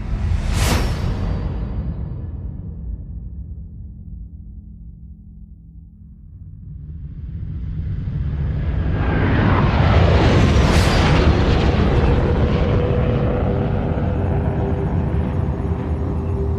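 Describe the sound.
Jet aircraft roaring in a video game: a fast whoosh sweeps past at the start and fades, then a second rising sweep builds into a loud, sustained engine roar.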